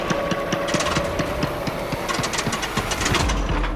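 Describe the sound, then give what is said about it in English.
A generator engine runs steadily with a rapid, even knocking pulse over a continuous mechanical drone, holding at a constant loudness throughout. “Oh, no. The generator.”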